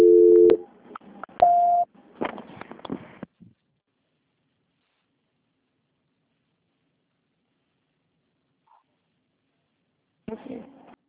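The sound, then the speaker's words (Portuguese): Telephone call transfer tones: a few short electronic beeps with brief clicks and muffled noise, then a long silence before a short burst of line noise at the end. “Só um minuto, por gentileza. Transferência. Transferência.”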